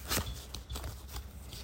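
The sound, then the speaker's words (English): Playing cards being dealt, a handful of quick, crisp snaps and flicks in an uneven rhythm over a soft background. “Dealing cards, dealing.”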